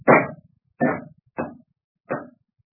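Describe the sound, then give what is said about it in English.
Four pistol shots in a radio drama, each a sharp burst with a quick decay, spaced at fairly even intervals with silence between and no talk. “Those were pistol shots.”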